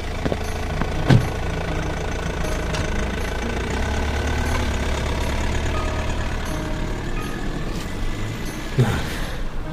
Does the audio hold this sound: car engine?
yes